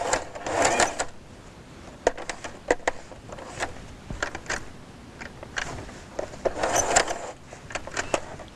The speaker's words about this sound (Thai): ถ้าเย็บฝั่งนี้นะคะเราก็จะต้องปรับนะคะเท้าทับผ้าหรือตีนผีมาอีกฝั่งหนึ่งเพื่อจะได้เย็บได้นะคะจากนั้นนะคะเราก็ปักเข็มลงแล้วเราก็เย็บค่ะ